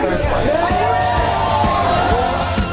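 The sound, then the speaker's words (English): Loud, dense crowd chatter fills a busy, crowded backstage room at a Global Battle of the Bands contest, with many overlapping voices merging into a constant hubbub. “And we're in a busy, crowded room here.”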